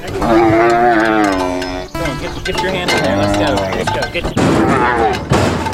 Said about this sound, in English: I plan to ride a bull, but I start out on a steer, a smaller castrated bull.